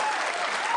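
Audience applause: a dense, steady burst of clapping that holds at an even loudness for under a second, with no talk over it.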